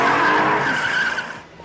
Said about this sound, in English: gets in and speeds off through the parking lot